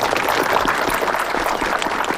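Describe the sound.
Applause from an audience at a lecture, a dense, even wash of many hands clapping at steady loudness from start to finish, with no single voice standing out.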